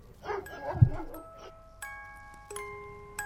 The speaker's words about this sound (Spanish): alteró a los perros de la zona, que comienzan a ladrar sin control y la grabación es aterradora.